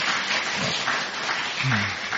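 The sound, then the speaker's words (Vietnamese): Audience applause at a Buddhist teacher's dharma talk: a steady, even wash of many hands clapping at once, fairly loud and sustained throughout. “Xin đại chúng một tràng pháo tay tùy.”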